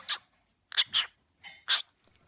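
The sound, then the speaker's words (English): Pet cockatiels and a green-cheeked conure give a few short, harsh squawks and chirps, fairly faint and separated by brief silences. “So we've got Chip, who is a cockatiel. We've got his brother, also a cockatiel, called Fish. And then we've got Pickles, who is the green-cheeked conure.”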